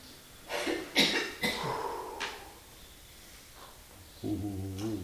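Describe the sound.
A few faint coughs and throat noises from someone at a talk, spaced over the first seconds. A brief voiced sound follows near the end.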